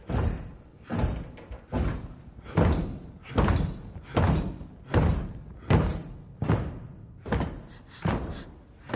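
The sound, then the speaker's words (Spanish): Men striking a hall floor with their weapons make a steady series of heavy, dull thumps at an even, measured pace, each blow loud and booming, with no voices. “Los hombres golpean el suelo con sus armas.”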